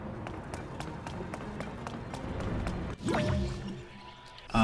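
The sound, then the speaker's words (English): Rushing water with drips and splashes from a waterfall flowing backwards up its course under a time-rewind effect in a fantasy adventure video game. A steady liquid wash is cut by a swooping tonal effect partway through, and a sharp burst closes it. “So it comes off a waterfall down into the level we're on. So we just rewind the whole thing and it back up the waterfall.”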